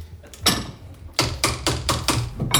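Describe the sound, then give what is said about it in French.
Sharp metallic taps on well-welded, well-assembled gunsmith's steel parts, struck in a quick irregular series, each hit leaving a brief bright ring like a tuning fork. “et ils résonnent mieux que certains aciers. Voilà, donc c'est assez rigolo. Ouais. Mmh. C'est comme un diapason, c'est le même principe. C'est là qu'on voit que tout est bien soudé et bien monté.”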